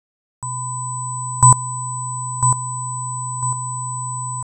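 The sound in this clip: A steady electronic test tone for checking a device's dynamics sounds from a demonstration cassette. Three brief, louder pulses break through it, spaced about a second apart, each one quieter than the last.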